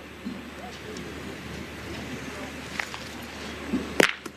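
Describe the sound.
A thrown pétanque boule strikes another boule during the shot in a final. A single sharp, bright clack comes near the end, after low background noise and faint murmuring.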